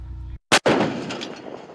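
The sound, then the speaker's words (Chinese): An artillery gun fires a live round at a target during a firing exercise: one sharp, very loud blast, then a long, rumbling roar that slowly fades. A short stretch of low machinery hum comes before it. “炮长借用考核间隙迅速复盘总结，及时测算修正量，并调整射击参数，再次对目标实施打击。”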